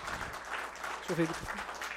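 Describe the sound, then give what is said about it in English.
Applause from an audience honoring the mothers at a Mother's Day gathering, a steady patter of clapping with a voice briefly rising over it. “we want to, first of all, give them a round of applause. Every mom.”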